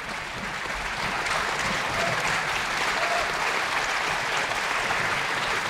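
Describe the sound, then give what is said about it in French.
Sustained audience applause at the Festival de la Roque-d'Anthéron, calling a pianist back to the stage for an encore. Dense, even clapping holds at a steady loudness from start to finish with no pauses. “Nicolas Stavi, rappelé par le public, le revoilà sur scène pour nous offrir un dernier nocturne de Chopin”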